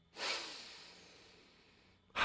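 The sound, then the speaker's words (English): A single deep breath, a long airy rush that begins strongly and slowly fades over about two seconds before the next breath starts abruptly at the end. “Take a deep breath.”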